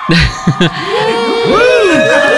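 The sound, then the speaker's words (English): Children cheering loudly: a few sharp shouts at the start, then overlapping high whoops and sustained cheering voices that swoop up and down in pitch. “Hooray! Let's cheer that one on.”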